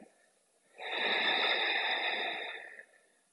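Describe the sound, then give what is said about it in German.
A single long, steady breath from a guided exercise of breathing in through the nose and out through a slightly opened mouth. It swells quickly into a loud, airy hiss that holds for about two seconds before fading, with no talk. “Atme durch die Nase ein”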